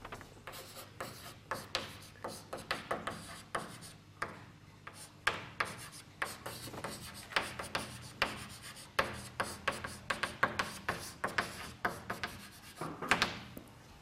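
Scratchy writing strokes as a solution to an orbit equation is written out in parametric form, many short rasping marks in an uneven, steady rhythm across the whole stretch, with no talking.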